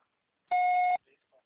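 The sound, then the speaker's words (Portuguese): A single electronic voicemail beep signals that a caller can start leaving a message on a mobile phone. It is a steady, mid-pitched tone lasting about half a second, followed by a few faint, brief sounds. “Deixe a sua mensagem na caixa postal.”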